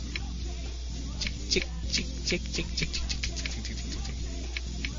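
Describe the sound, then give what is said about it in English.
A computer mouse clicks many times in quick, uneven succession while sound settings are unchecked; the light, crisp clicks sit over a steady low hum. “Hear all my clicks? Mm-hmm. I'm unchecking all these stupid sounds.”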